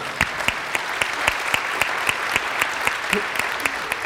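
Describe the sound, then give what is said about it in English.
An audience applauds to welcome the speaker's family, with a continuous wash of clapping and individual sharp claps standing out in a fairly regular rhythm. “Let's give them a hand, welcome.”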